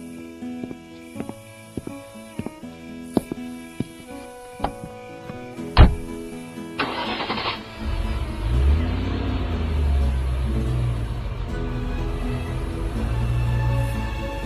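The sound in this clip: A car engine starts after a run of sharp ticking clicks and one loud click, then settles into a steady, low, sustained rumble that carries to the end, with no voices.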